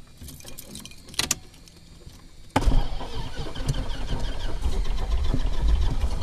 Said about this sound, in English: It's starting. And there it is. Feel the breeze? Yes. Those propellers put off quite a breeze. They really do. So the plane has started.